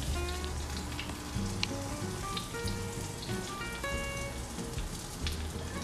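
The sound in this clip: Lemon French toast sizzles in a pan with a soft, continuous crackling hiss full of tiny pops, fairly faint and without any voices.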